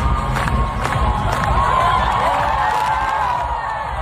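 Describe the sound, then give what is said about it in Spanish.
A crowd on the steps of the Hungarian Parliament cheers and shouts for the new health minister to dance, with loud sustained cheering, whoops and high voices running continuously throughout. “El público aquí escuchamos que se lo pedía directamente que bailase, claro.”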